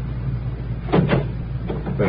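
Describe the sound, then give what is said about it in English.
A taxi door being opened gives a few dull clunks and knocks over a steady low hum, with no talk. “Now, would you mind opening the door?”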